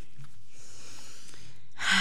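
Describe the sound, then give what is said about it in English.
One deep, sharp breath is drawn just before a radio interview; it rushes in near the end after near-silence. “Take a deep breath.”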